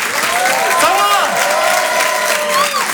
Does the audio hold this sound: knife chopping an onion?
no

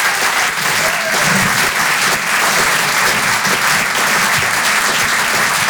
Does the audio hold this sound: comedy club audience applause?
yes

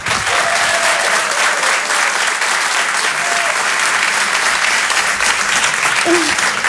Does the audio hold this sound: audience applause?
yes

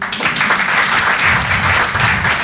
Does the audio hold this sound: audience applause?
yes

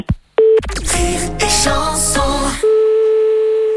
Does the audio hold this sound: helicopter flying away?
no

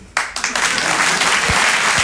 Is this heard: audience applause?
yes

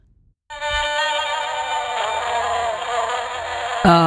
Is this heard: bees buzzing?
yes

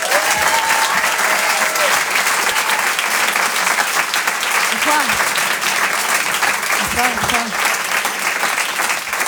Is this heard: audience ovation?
yes

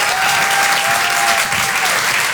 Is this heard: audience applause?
yes

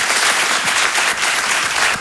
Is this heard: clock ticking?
no

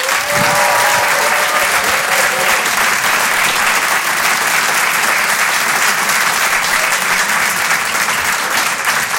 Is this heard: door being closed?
no

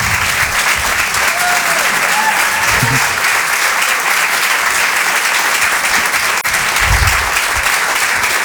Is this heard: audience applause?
yes

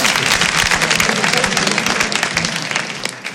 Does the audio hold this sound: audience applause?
yes

